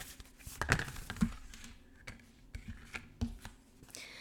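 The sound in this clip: Faint brushing and snapping of tarot cards being shuffled by hand, with a few soft taps and rustles at uneven intervals and no voices.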